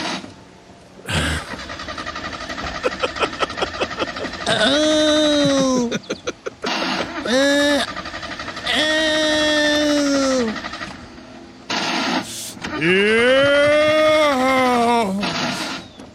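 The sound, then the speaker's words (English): A car engine cranking over with a quick pulsed stutter, then catching and running in several separate bursts, each swelling into a loud whining rev that rises and falls before cutting off. “You're parked, okay. And you run the engine, and then it starts vibrating, and I guess it shakes your butthole. I'm not certain, but if you want to hear, here are just some of the erotic sounds of cranking.”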